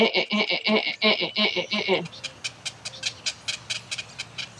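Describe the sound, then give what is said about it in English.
A voice imitates heron chicks begging for food in the nest with a rapid run of shrill, nasal, repeated squawks. A series of fainter, short clicking chirps follows. “And they will drive you crazy because they are up in the nest all day and they kind of just, now this sound I can imitate. They're kind of just like,”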